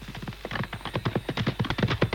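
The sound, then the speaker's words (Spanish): Horse hooves clip-clop in a quick, even rhythm, a steady run of hollow knocks that continues for about two seconds without any talk. “¡Vamos, caballito!”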